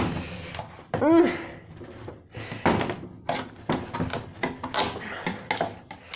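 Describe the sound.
A knife cuts through a pumpkin to halve it, making many heavy thunks and rough scraping bursts in an uneven rhythm. A brief voice sounds near the start.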